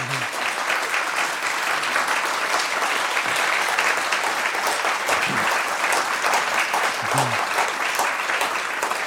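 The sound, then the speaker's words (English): Audience applause welcoming a guest onto a stage, a dense, even clatter of many hands clapping that holds steady throughout without a break. “Ladies and gentlemen, please give a hand to Chris Wilson.”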